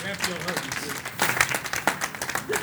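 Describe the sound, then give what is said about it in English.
Audience applause: a steady patter of many hands clapping, mixed with talking voices. “Man, give Greg a hand clap, y'all.”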